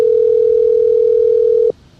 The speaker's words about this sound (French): on va passer un coup de fil à Sonia Dridi de la RTBF